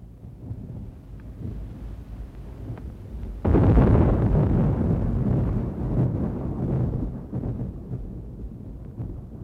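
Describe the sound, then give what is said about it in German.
Thunder during a storm at sea, a low rolling rumble that swells abruptly loud about a third of the way in and keeps growling steadily to the end, with no voices. “Das Gewitter ist vorbei, Vitellius. Ja, es ist vorbei. Ich sah die Blitze herabfahren.”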